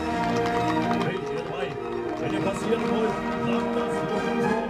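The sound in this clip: Horses gallop as musketeers ride, their hoofbeats a rapid, continuous patter with voices throughout.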